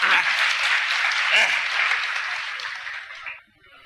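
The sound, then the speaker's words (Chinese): Audience applause at a live stage comedy show: a dense, steady clatter of clapping that holds for about three seconds, then drops off abruptly, with a voice speaking over it. “各位鼓鼓掌，让咱来了易中天怎么样？”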